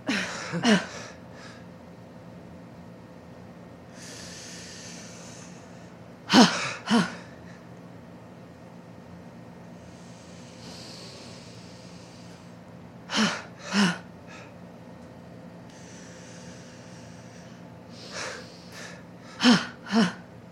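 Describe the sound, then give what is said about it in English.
Deep breaths in and out during a guided breathing exercise: slow, airy exhales alternate with short, sharp gasps, repeating several times without talk. “One breath in, making you inflate up. And letting out like a bad leak.”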